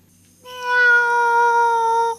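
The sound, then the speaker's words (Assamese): A black female cat meowing: one drawn-out, fairly loud meow with a steady, clear tone that starts abruptly and stops cleanly. “মাছ চুৰ কৰি খোৱা কলি মেকুৰীজনী।”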